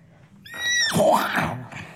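A horse neighs once: a high, wavering whinny that falls in pitch, followed by breathy snorting, moderately loud over faint background noise.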